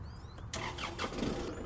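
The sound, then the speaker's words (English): A big commercial brush-hog mower engine starts: quiet mechanical clatter gives way to a sudden jump as it catches, then runs on at a steady, fairly faint level. “It's a big commercial mower is what it is. And it's got a huge spinning blade inside, and this will chew up branches and trees and all kinds of stuff.”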